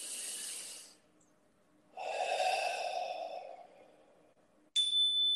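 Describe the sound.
Deep, slow breathing during a guided meditation: a couple of long, airy breaths with soft hissing air, fairly faint and with no talk.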